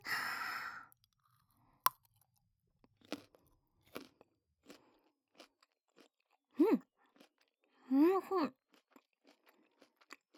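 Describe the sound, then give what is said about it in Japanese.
Crisp crunching bites and chewing of a raw carrot come as a few scattered sharp crunches, with a breathy sigh at the start and a couple of short voiced murmurs between bites. “人参からいただきます。”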